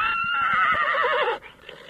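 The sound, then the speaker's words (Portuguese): A horse neighs in one loud, long whinny with a trembling, wavering pitch that breaks off abruptly after about a second and a half. “Mas me bota um relincho quando eu chego, tio.”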